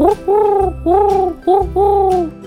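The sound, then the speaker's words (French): Wood pigeon cooing in a five-beat phrase: a short note, two longer hooting coos, another short note, then a final long coo. The soft, throaty notes are clear and steady, with a faint low background. “Ils vont tous les deux roucouler. Mais le pigeon ramier va faire 5 temps.”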